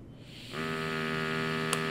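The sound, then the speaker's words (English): A steady humming tone from a Hound Lab pot (THC) breathalyzer starts after a brief quiet moment as a man blows into it. The hum holds even and moderately loud, with one short click near the end. “The CEO of Hound Lab, the scientific device company he founded, slips a new cartridge into the pot breathalyzer and starts to blow.”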